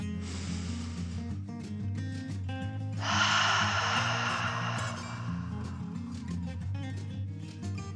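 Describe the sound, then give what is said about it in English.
A deep, slow breath is drawn in and pushed out. It makes a loud, airy rush of about two seconds before fading to quieter breathing. “He took another dragon breath.”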